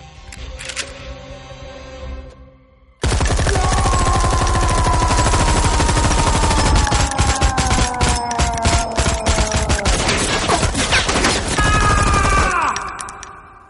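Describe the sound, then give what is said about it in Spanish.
Automatic gunfire rattles in an action spy comedy film, a dense, loud, continuous burst lasting about ten seconds after a quieter opening, then fading out at the end. “Adolfo ha disparado, pero no ha dado ni a uno.”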